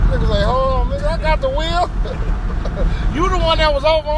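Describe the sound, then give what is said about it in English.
A car's engine and road noise drone steadily while it is being driven, a constant low rumble running beneath loud, lively talking voices. “I'm driving while we doing the podcast, y'all.”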